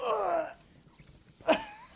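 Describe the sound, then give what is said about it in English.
A person strains while lifting a very big, heavy package, letting out two breathy grunting exhalations, a longer one first and a short sharp one later, with quiet gaps between. “You can hear my bated breath trying to lift this.”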